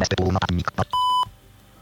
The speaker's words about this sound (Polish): I pojawiło się takie piśnięcie jeszcze dodatkowe, które oznacza, że jestem połączony w tym momencie z tobą